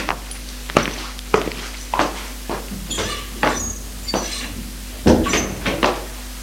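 Footsteps and a door as someone walks out of an office: a series of separate thuds and knocks at an uneven walking pace, with a louder, fuller knock near the end.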